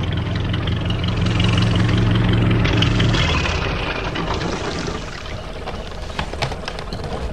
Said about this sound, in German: Da legte ein kleines Boot am Steg an.